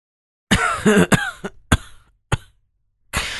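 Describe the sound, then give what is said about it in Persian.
A voice acting out the pained coughing of an ailing governor: a string of several rough, voiced cough bursts, the first ones clustered and throaty, the later ones sharper and spaced apart. “حاکم سرفه کنان به صدای دردمندی گفت”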